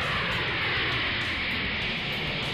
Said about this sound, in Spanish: Abróchense sus cinturones que ya vamos a despegar.